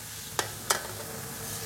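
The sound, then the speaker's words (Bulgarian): Beetroot and veal dropped into a frying pan, giving two short, sharp clattering impacts in quick succession over a steady low background hum. “На 2/3 от времето добавяме цвеклото и телешкото.”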